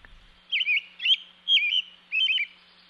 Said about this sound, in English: you hear this robin really opening up his mind and expressing what he's... Well, let's hear it again.